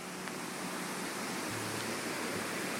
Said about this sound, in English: this is the sound of the South St. Vrain River, which has, it looks like the Congo at this moment.